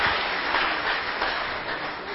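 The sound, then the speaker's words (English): Congregation hand clapping in a continuous, dense wash of claps at a steady, fairly loud level, with no clear pauses. “Can we clap our hands now for Jesus?”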